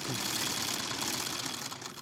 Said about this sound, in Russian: Стрекочет машинка Зигнер. Бабушка по-своему переиначила фирму Зингер.